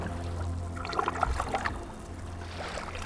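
Sea water moving softly, faint lapping and trickling with gentle splashes in a low, steady wash.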